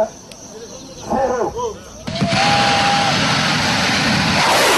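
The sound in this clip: Night launch of the Troposphère 5 rocket from its launch pad: after a quieter stretch with a voice, a sudden loud roar breaks in about two seconds in and holds steady and dense to the end.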